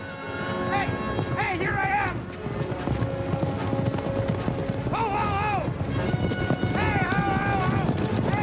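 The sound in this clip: Horses gallop in a rush of rapid, loud clip-clopping hooves, a mounted group racing toward a crowd. Several high whinnies rise over the steady pounding.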